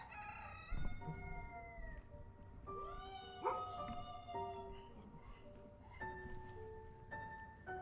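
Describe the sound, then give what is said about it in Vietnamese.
Rooster crowing behind a house at dawn, a few long, harmonic cock-a-doodle-doo calls, some overlapping, with drawn-out held notes, faint and with no talk over them. “tiếng gà gáy sau nhà vừa vang lên.”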